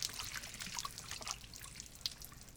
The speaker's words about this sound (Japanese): これからお湯をかけて髪を濡らしていきますね。しっかりと髪の毛全体に行き渡るように、たっぷりとお湯をおかけして。